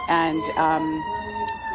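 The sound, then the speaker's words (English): An ambulance siren passes with a steady, high wailing tone that holds throughout, and a voice is briefly heard over it at the start. “And of course, now an ambulance is going by, so I told you that was going to happen.”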